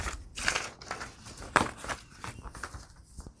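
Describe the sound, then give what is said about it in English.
Book pages are cut down with a faint series of crisp snips and rustling paper, uneven in rhythm, with a few sharper cuts standing out. “maybe you got some book pages you want to use. Let's try that. Okay, let me use these. Let me just cut these down.”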